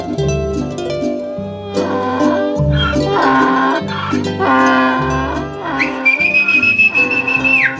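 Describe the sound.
A muleteer's shrill whistle: one long, high, sustained note near the end with a sharp rise at its onset, heard over music.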